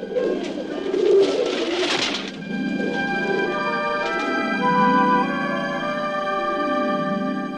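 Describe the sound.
Pigeons coo in a series of soft, rolling calls that rise and fall in a repeating rhythm, moderately loud and with no talk.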